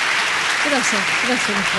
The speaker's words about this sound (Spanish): Estamos flacos de aplauso porque hoy es feriado.